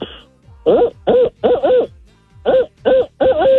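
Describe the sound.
A person's voice imitates a barred owl call: a rhythmic series of throaty hoots in two bursts with a short gap between, the final hoot drawn out and sliding in pitch at the end.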